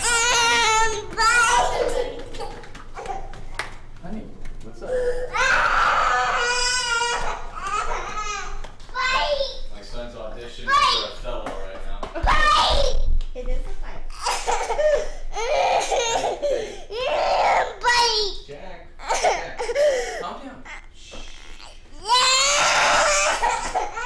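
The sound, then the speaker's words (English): A young child cries and wails through a tantrum in many loud, uneven bursts separated by short pauses, with whiny, babbling vocal sounds between the louder outbursts. “Supposed to ignore the tantrum because giving him attention may prolong the tantrum”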